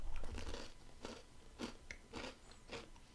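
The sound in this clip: Biting and chewing a crunchy, butter-flavored snack, heard as a faint series of crisp crunches and crackles recurring at a steady pace.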